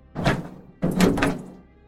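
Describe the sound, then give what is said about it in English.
Opening a rusty warehouse door produces two dull, heavy thunks, the second longer and louder. No voices are heard. “Come in, Surinder said as he opened a rusty door.”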